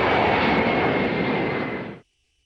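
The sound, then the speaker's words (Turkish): A presidential airplane departs Esenboğa Airport with a loud, steady roar of aircraft engines holding constant, then cutting off abruptly near the end into silence. “Esenboğa Havalimanı'ndan ABD'ye hareket eden Trump'ın dönüşte başka bir başkanlık uçağını tercih etmesi dikkat çekti.”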